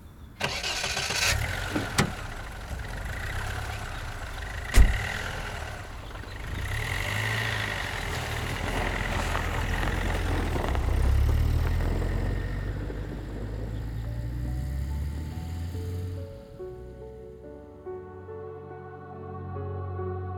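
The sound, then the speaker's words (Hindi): A car engine starts and runs as the car drives off, a steady mid-pitched rumble with a sharp click early on. The engine note swells midway, then thins and fades away toward the end. “Divya उसकी बातों का कोई जवाब नहीं देती और सुप्रिया की car में बैठकर चली जाती है”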